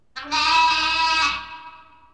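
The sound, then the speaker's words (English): A lamb bleating: one drawn-out, wavering bleat with a bright nasal tone, starting abruptly and fading away toward the end, heard alone against silence. “Lambs.”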